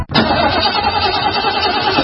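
A car engine in a car with a failing battery gives a steady, even rumble with no break for about two seconds.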